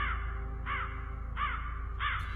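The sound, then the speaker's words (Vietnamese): A flock of crows cawing overhead: three harsh, evenly spaced caws ring out over a constant low rumble. “Từ trên bầu trời, tiếng bầy quạ bay tới, kêu lên ráo rác những tiếng thê lương.”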